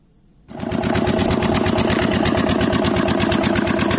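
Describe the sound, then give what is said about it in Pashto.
A generator powering a pipe-making factory starts up and settles into a loud, steady engine drone with fast, regular pulsing throughout. “لدی جنراتور څخه د پایپ جوړولو د یو فابریکې لپاره برېښنا برابرېږي.”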